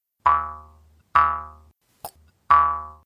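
Twangs of a Jew's harp played by mouth: three separate bright plucks, each ringing with a buzzy, harmonic tone that fades out, plus a short faint click between the second and third.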